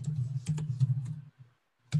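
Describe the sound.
Keyboard typing while an email address and short intro text are entered on a membership site's forum settings. A few scattered key clicks sound over a steady low hum, then a pause and one final click.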